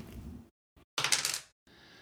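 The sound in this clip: Dice rolled for a draft order: a couple of brief clicks followed by a short, sharp clatter that quickly dies away, with quiet gaps between.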